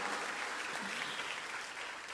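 A church audience applauds during a service with continuous, dense clapping. The sound is faint and even, holding a steady level without clear breaks.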